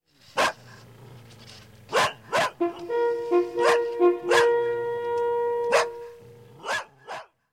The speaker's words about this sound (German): Aus den Bergen hört man Hörner und Hundegebell.